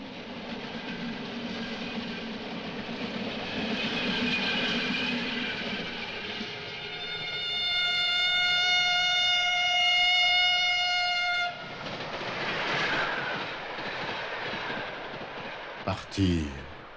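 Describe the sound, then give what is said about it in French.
A train passes through a deserted station with a steady rolling rumble, and a loud sustained horn of several tones sounds through the middle before a sharp clatter near the end. “Un train passe, la gare est déserte.”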